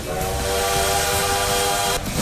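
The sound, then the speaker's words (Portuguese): A bullet train sound effect, a loud, steady whistle-like tone held over a broad rushing hiss that cuts off abruptly near the end. “Olha o trem-bala aí, ó, gente, te levando de carona ainda.”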